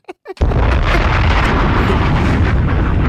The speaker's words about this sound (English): Bombs!